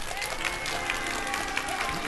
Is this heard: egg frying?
no